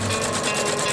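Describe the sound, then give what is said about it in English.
Steady mechanical rattling and clicking from a machine stitching socks in Australia, a fast, even ratchet-like chatter that runs without a break for the whole second, with no voices. “Socks being stitched.”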